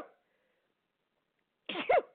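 A single sneeze bursts out after a long silence, a brief rough blast followed by a short voiced tail, loud and isolated with nothing else around it.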